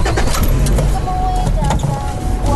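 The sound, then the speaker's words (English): Steady, loud engine and road noise from a Skoda Kodiak Sportline SUV on the move, a continuous broad rumble holding an even level throughout. “Right, so I'm off again for a drive in my Skoda Kodiak Sportline provided by our buddies at Finbar Galvin Limited, Bandon.”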